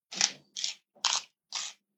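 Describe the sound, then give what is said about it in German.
Crisp crunching as vegetables are chewed, four evenly spaced bites, each a bright, dry burst of about a quarter second separated by silence. “Ich esse jetzt mal ein bisschen Gemüse.”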